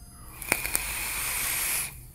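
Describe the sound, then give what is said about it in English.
A faint, airy hiss of someone drawing on a leaking vape tank held upright, opening with a couple of sharp crackling clicks, then a steady draw of roughly a second and a half before cutting off. “If I hold it up straight, I can kind of vape through it.”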